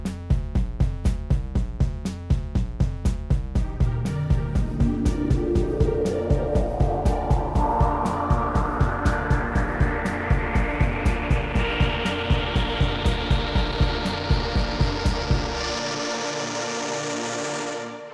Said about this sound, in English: Okay, let's start the time machine up. See you on the other side.